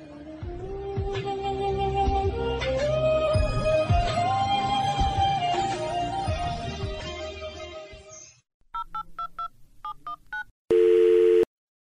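Electronic telephone beeps signal an incoming call. They come in short bursts and end in one sustained tone, after several seconds of music.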